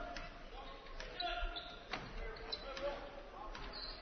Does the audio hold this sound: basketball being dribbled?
yes